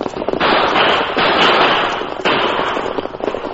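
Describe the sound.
Gunshots ring out in a western radio drama as outlaws fire on a stagecoach, loud crackling blasts running together into a few long, dense bursts of noise with no talk over them.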